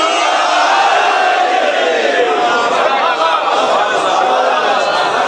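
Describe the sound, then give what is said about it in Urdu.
Crowd shouting the Nara-e-Haidari slogan, hands raised, a loud sustained roar of many voices blended together with no break throughout. “تو آخر تک بیٹھے ہوئے تمام دوست احباب ہاتھوں کو بلند کیے ہوئے لگا دیں نعرہ حیدری”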